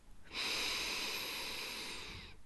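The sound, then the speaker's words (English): A single slow guided breath drawn in a long, steady, airy hiss lasting about two seconds, fairly quiet and alone with no talk. “Now breathe out slowly through your mouth or your nose if it feels more natural. And breathe in.”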